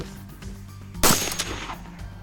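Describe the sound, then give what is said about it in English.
A single sharp gunshot from a PS90 rifle firing 5.7 ammunition cracks loudly after a stretch of low background hum. It is followed by a brief, decaying rumble. “All right, come over here at the PS90. It's armed. Aim at the hero.”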